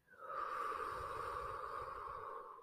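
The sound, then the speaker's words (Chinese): A single long, deep breath flows during a guided breathing exercise: a faint, steady, airy hiss that holds evenly for a couple of seconds with a slight whistling tone. “我们先好好的把气吸到满，吸气，再吐气。”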